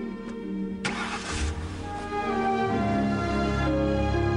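A car engine starts with a sudden burst of noise, then settles into a steady low rumble as the car is driven away, with a faint steady tone running through it.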